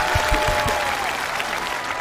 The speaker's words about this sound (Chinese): 掌声鼓励，掌声鼓励，掌声鼓励！